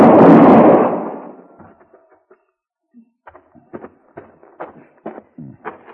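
A single loud gunshot cracks out at the start of a tense Old West gunfight showdown and fades over about a second, followed by a stretch of faint, scattered clicks and knocks.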